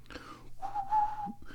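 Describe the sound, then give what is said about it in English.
Faint, breathy whistling as a person struggles to whistle a song melody: a short, higher note, then a longer, steady tone that fades out. “I can't whistle today. Oh, that was difficult to do.”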